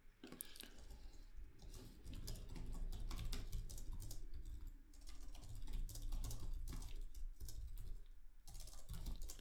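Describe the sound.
Typing on a computer keyboard, a steady, faint stream of many rapid clicks and taps continuing throughout without pause.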